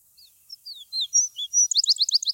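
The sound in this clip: Bird song of high, thin whistled notes, several short sliding phrases spaced apart, building into a rapid run of repeated bright chirps at the end.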